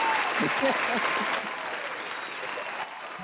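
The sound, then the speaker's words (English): Audience applause marking the end of a show, a broad, muffled patter of many hands with a voice talking over it early on, easing slightly in loudness partway through and again near the end. “we're going to give everyone an applause, and I'm going to take my bow, of course.”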